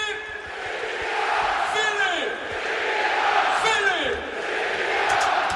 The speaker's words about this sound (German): 1500 weiß gekleidete Gästefans müssen den Torjubel des SC Paderborn ertragen. Und den hören wir uns da jetzt mal an.